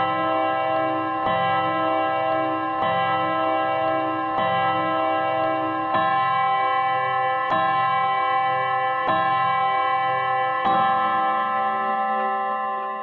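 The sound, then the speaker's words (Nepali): Ticking of a Timex watch clock: regular sharp ticks about every one and a half seconds, layered over a steady, bright ringing tone that runs throughout. “यो समय Timex घडीको हो।”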